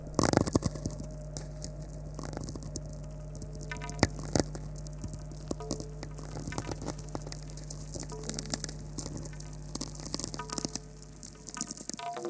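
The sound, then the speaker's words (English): Natural radio spherics and tweaks from lightning storms and solar wind, recorded in summer on a cliff by the sea: many dry, irregular crackling clicks and pops over a steady low hum, quiet throughout. “This is the sound of natural radio emissions from space, generated by lightning storms in the Earth's atmosphere and the sun's solar wind interacting with the magnetosphere.”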